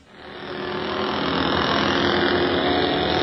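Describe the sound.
An auto rickshaw engine starts and pulls away. Its rumble swells over the first second, then holds as a steady, dense drone to the end.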